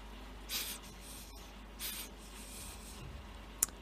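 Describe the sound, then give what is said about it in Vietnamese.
Soft squishing rubs from a plum being squeezed by hand: two faint friction bursts, then a small sharp click near the end, all quiet against low steady background noise. “À, mình đang bóp mận. Quả mận này ấy, mà ăn thì nó sẽ chua. Mà chúng ta bóp bóp một tí thì ăn nó sẽ ngọt hơn.”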